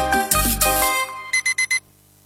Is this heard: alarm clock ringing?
yes